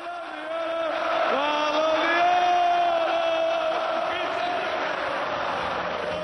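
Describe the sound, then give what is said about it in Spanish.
A large football crowd at the Santiago Bernabéu chants "Balón de oro" in unison for a Real Madrid player at the end of the season, a loud sustained sung chant that swells after a quieter start. “Balón de oro, decía el público del Bernabéu.”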